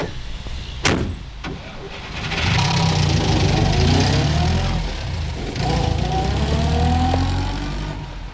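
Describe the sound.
A car drives off, its engine a steady mid-pitched rumble that swells after a sharp thud near the start and stays loud to the end.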